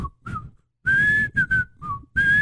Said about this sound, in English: I used to be able to whistle the whole theme song.